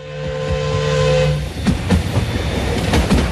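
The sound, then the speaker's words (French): Crowded special passenger train, with extra wagons added, halting just short of a station: a sustained whistle-like tone fades out, followed by rhythmic wheel clacks and scattered metallic clanks. “Un train spécial s'ébranle depuis Bienne pour rallier la capitale où les festivités battent leur plein. Ce 17 août, tôt le matin, le convoi, auquel on a rajouté des wagons, tous bondés, s'arrête peu avant la gare de Zollikofen”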